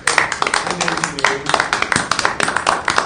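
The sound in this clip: Applause for the planning staff at a committee meeting: a small group claps, producing many crisp, uneven hand slaps that overlap in a busy, rattling patter at a moderate level.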